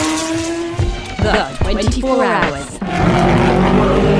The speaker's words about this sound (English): the number 20 Porsche's made it back to the pits.